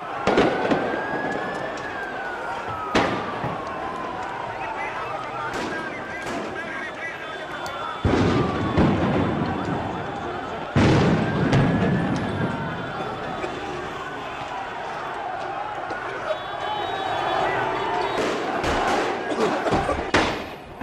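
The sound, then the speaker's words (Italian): Street clashes and riots in Athens with Molotov bombs: many sharp bangs and heavy thuds burst irregularly over a loud, continuous crowd roar, with voices shouting throughout. “Questo è il sonoro degli scontri che da questa mattina si stanno purtroppo susseguendo ad Atene. Tre morti, bombe Molotov, persone bruciate, morti in una banca, attaccata con bombe Molotov”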